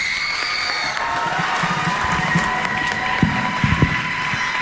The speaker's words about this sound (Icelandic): Gefum gott klapp.